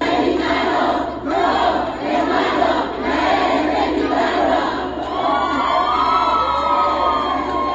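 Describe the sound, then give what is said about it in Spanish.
Spider-Man fans in Mexico City chant a classic cheer to welcome the film's stars and director, a loud sustained crowd roar with rhythmic shouted pulses and no break. “Con esa clásica porra, los fans del Hombre Araña le dieron la bienvenida a Tom Holland, Zendaya y al director Destin Daniel Cretton en la Ciudad de México.”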